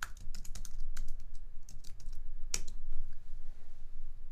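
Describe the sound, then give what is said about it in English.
Typing on a computer keyboard for a Google search: quick, irregular key clicks in short bursts, with one sharper, louder tap midway. “Then I want you to go to Google and type in RIA meeting and then your city.”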